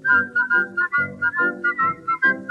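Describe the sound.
Bright, clear whistling carries the melody of a close-harmony vocal group song, in short lilting phrases of quick rising and falling notes over a soft lower accompaniment.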